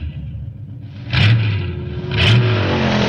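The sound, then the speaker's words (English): A car accelerates on a test track, its engine revving up in two rising surges over a continuous low rumbling drone. “you have 20 seconds to enter and accelerate to your approved test speed.”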